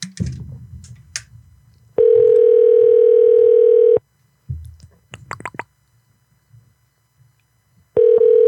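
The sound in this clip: Ringback tone of an outgoing telephone call: two long, steady electronic ring tones separated by a pause filled with faint clicks and handling noises, the second tone cut off at the end.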